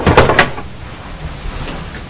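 A cupboard door opens with a brief, loud creaking scrape in the first half-second, then gives way to a quiet, steady hiss.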